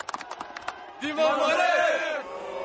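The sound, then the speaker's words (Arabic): A crowd celebrates, with fans of two teams cheering together. A few sharp claps or clicks open the scene, then a sustained roar of many shouting voices swells and holds loud before easing slightly. “أصوات احتفال قريب بعيد، احتفال بفريقين، الأول أزرق أبيض أحمر والثاني أحمر أخضر.”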